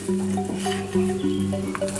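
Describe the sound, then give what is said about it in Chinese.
River shrimp, peanuts and dried chilies stir-fry in a wok over low heat until crisp, giving a steady, continuous sizzle with stirring throughout. “将本地的河虾微火炒至焦脆，花生和干辣椒爆香”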